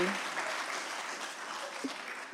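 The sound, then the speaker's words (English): Audience applause for stage helpers at a live show. The clapping is fairly soft but continuous, forming a steady even wash throughout. “Can I have a big round of applause for my helpers?”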